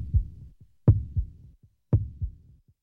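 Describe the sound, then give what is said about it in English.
A heartbeat-like sound closes out a song: deep, soft double thumps repeat in a slow, steady lub-dub rhythm, alone with no voices or music over them. “And it kind of ends with this kind of heartbeaty sound.”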